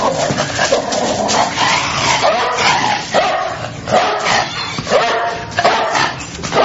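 A dog mauling sound effect of frantic barks, yips and whimpering snarls, packed densely and loud throughout, with no pause in the canine noise.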